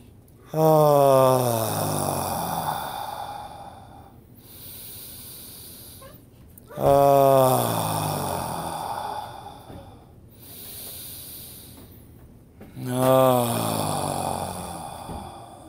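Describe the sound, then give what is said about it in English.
A group takes three deep breaths in unison, each a loud, drawn-out inhale with some voiced tone that fades into a long, softer breathy hiss, with quieter gaps between the breaths. “We'll do three more breaths through all those areas in unison.”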